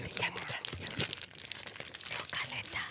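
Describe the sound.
A Sour Patch Kids candy packet crinkles softly in many quick crackling bursts of plastic, continuous and quiet, with faint talking underneath.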